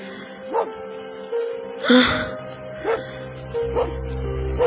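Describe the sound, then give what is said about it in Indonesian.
A dog barks several times in short, separate yelps and woofs spaced about a second apart, with a louder, whimpering bark in the middle and a low steady hum underneath. “suara anjing tadi muncul lagi. Ternyata anjing itu belum pergi.”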